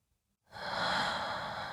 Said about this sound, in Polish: Wciągnijmy wszyscy powietrze przez nos i wypuśćmy je ustami. I jeszcze raz. Wdech.